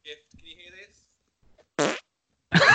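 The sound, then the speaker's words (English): Two short, loud fart bursts are made into a microphone, following a few faint voice sounds at the start. The second burst is longer and rougher than the first. “Can you hear this? I have not farted on the mic for yonks.”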